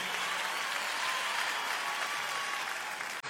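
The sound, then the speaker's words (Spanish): Audience applause, a sustained crowd of many hands clapping at a constant, full level, which cuts off abruptly at the very end. “Fuerte el aplauso, por favor, Tour Tarazo”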